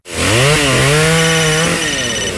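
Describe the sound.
A chainsaw cuts loudly and without a break. Its engine whine shifts as it revs, dipping briefly and then holding high before settling at the end.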